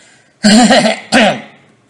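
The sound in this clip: Someone clears their throat in two loud, rasping bursts, a longer gravelly rumble followed by a shorter one that trails off.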